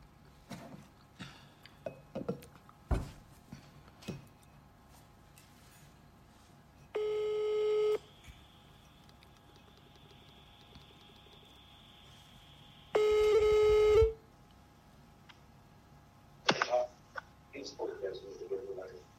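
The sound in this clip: A phone call rings out to the caller's mother. Two long, steady mid-pitched ringback tones sound about six seconds apart against a quiet line, and a voice picks up just after the second ring.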